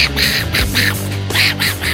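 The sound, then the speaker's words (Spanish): A voice imitates the garbled, quacking speech of a cartoon duck in a rapid run of raspy, nasal bursts. It is loud and continuous over a low background hum. “el piedrero les respondió algo que yo no entendí, porque hablaba igualito al Pato Donald. Sí, les respondió algo así como...”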